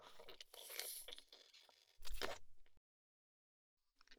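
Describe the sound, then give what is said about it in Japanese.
Someone biting into food and chewing: two loud crunching bursts, then a sudden silence and a faint sound at the very end. “次は味見だけじゃなくて食べちゃおうっと。”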